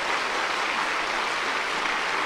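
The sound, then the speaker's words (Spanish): Applause from a church audience for its pastors, a soft, uniform rush of many hands clapping, steady and fairly faint, with no voices or distinct individual claps standing out. “Aplauso para nuestros pastores.”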